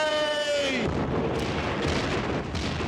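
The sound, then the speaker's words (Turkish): Cannons fire in a dense, rolling rumble with a few sharper bursts, following a brief shouted voice at the start. “Bütün toplar ateşe hazır olsun. Ateş!”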